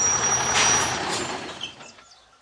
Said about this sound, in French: On roule à 100 km/h avec un véhicule dont la vitesse est limitée à 70 km/h.